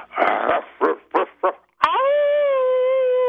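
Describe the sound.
A man imitates a dog with his voice: four short, rough barks in quick succession, a brief pause, then one long, steady, tonal howl that holds its pitch to the end.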